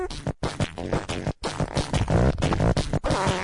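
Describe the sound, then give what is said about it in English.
Fart noises built into a club-style dance track: buzzy, tonal bursts in a pulsing rhythm, loud and nearly continuous, broken by a couple of brief silent gaps. “Yeah, this is like club farts. Yeah. You can almost see people dancing to this.”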